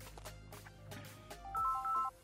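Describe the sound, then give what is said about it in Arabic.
A telephone rings with a short electronic ringtone of a few steady, mid-pitched beeping tones, louder than the quieter, cluttered sounds before it. “استنوا كده معنا تليفون نقول ألو”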